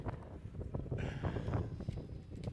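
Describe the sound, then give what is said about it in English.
Wind blowing across a microphone, a low, gusting rumble that stays fairly steady throughout. “you like the noise? Yes, Holy Spirit in the background. Just remember that. When you hear the wind blowing, God's trying to emphasize a point.”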